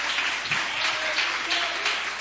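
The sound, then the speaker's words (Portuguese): Congregation applause at a church worship service: steady, dense clapping fills the whole clip without pause, a busy even patter with no clear breaks. “Vamos receber o servo de Deus com palmas e glória. Palmas e glória, bem alegre para louvar Jesus.”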